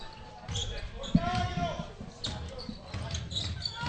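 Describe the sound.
A basketball is dribbled on the court during a game. A few dull bounces, one clearly louder, sit beneath crowd noise and a continuous play-by-play voice.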